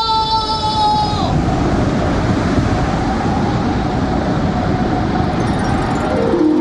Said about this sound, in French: Mais il est bien creusé là, tout d'un coup l'océan là. Qu'est-ce que c'est que cette vague énorme?